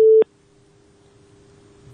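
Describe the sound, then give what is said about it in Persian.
A telephone tone marks a caller's line dropping during a call-in: one short, loud electronic beep, then a faint, steady tone over low hiss. “بله فکر کنم تماسشان قطع شده.”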